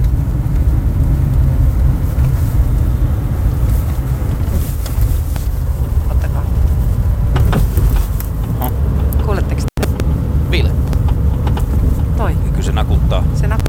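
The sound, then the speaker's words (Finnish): Intermittent rattling and clunking from a car, suspected to come from the rear axle, sounds over a steady low road and engine rumble with wind noise. The knocks grow more frequent toward the end. “Niin tää on nyt sitten tänään äänitetty mun autosta, niin toi kolina, mikä tuolta kuuluu, niin mitä tapahtuu, auttakaa.”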